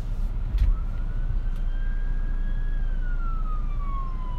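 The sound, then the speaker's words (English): An emergency vehicle siren sounds behind a driving car: one long wail that climbs slowly, holds, then falls away, over a steady low road rumble. “That's a siren. Yeah, there's a siren behind me.”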